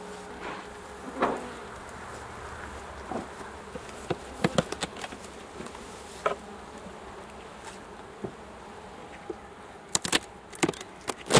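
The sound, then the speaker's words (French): Honeybees buzz steadily around a hive that has been calmed with smoke and is being opened. Many sharp wooden cracks and knocks break through the droning hum, clustering near the end. “on leur souffle un petit peu de fumée et ça permet de pouvoir accéder dans la ruche. On va ouvrir maintenant.”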